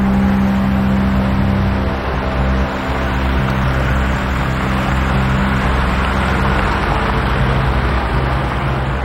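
A car engine runs as the vehicle pulls away, a steady low rumble with a broad even roar lasting about nine seconds, without talk.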